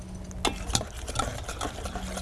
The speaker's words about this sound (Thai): จะใช้ตะกร้อกวน